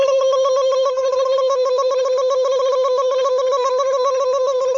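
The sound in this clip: A telephone signal sounds while an outgoing call is placed to a photo studio: a continuous buzzy electronic tone with a rapid, regular flutter, holding steady in loudness throughout with no voices.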